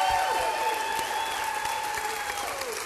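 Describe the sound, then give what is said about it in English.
Live audience applauding at the Paramount Theater in Austin, Texas, during a festival event: full, steady clapping from a large crowd that stays loud and fades slightly toward the end. “I've got a live audience here at the Paramount Theater. Let's hear it.”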